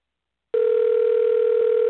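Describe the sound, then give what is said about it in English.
A telephone dial tone sounds as a call is placed: after half a second of silence, a steady, continuous mid-pitched tone begins and holds unchanged, loud and alone, to the end. “So we're going to dial her number, and you guys get to listen in.”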